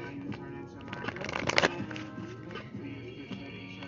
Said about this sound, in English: We're going to go to the Soul's Journey Lessons cards. So let's see what the lesson here is this lifetime